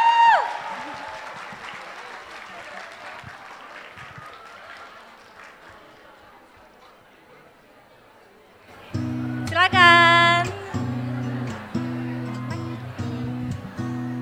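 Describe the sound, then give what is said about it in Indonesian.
Applause from an audience welcoming two guests onto a stage, a steady wash of clapping that slowly fades, then music starts abruptly and plays loudly to the end. “Oke, kita sambut dengan tepuk tangan paling meriah.”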